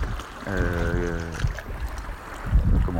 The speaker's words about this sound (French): Je pense que vous entendez le bruit de la mer à côté de moi. J'espère que le vent ne va pas trop